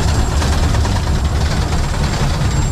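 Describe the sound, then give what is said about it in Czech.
A steam locomotive built in 1925, heard from the cab beside the driver, gives a loud, steady roar with broad hissing that runs without a break for the whole stretch, with no talk over it. “Poprvé v životě jedu parní lokomotivou hned vedle strojvedoucího.”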